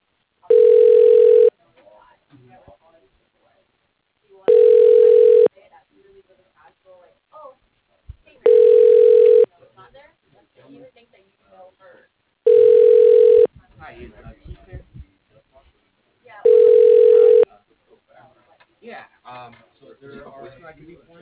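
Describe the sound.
A telephone extension rings while a caller holds: five evenly spaced bursts of a steady ringback tone, each about a second long and roughly four seconds apart, with faint muffled sounds in the gaps.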